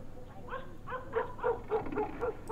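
A dog barks at night outside a villa: a quick, rhythmic series of short, yipping barks, fairly faint throughout.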